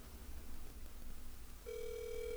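Ringback tone on an outgoing telephone call: after a low, noisy hiss, a faint steady single-pitched tone sounds alone and continues to the end.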